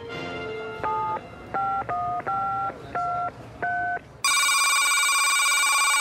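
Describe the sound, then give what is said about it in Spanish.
Telephone keypad tones as a caller hangs up and redials: six short, evenly spaced beeps of varying pitch, then a loud, continuous ringing tone that runs to the end. “colgó y volvió a marcar.”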